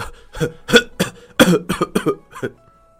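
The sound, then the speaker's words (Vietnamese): An old man gives a run of dry, hacking coughs, many short harsh bursts in an uneven rhythm that fade out at the end, with no talking. “Phan Thượng Thư biểu tình trầm thống mà chua xót, vừa nói vừa ho khan”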